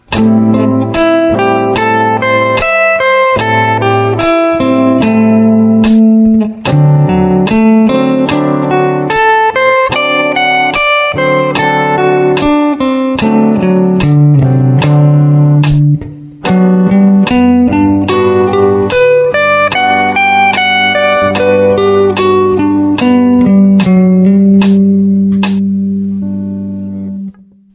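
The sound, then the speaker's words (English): Slow arpeggios of A minor 7, D7 and G major 7 chords, with each chord played one picked note at a time in an even, unhurried rhythm. The notes ring alone and overlap as they sustain, and the last chord fades away. “Example 13 uses arpeggios, or chords played one note at a time. We're going to arpeggiate an A minor 7 chord, a D 7, and a G major 7, and at a slower tempo, it'll sound like this.”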